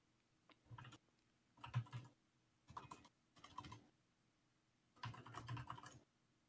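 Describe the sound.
Typing a search into Google on a computer keyboard: faint, clicky keystrokes in about five short bursts, each a quick run of taps, with quiet pauses in between.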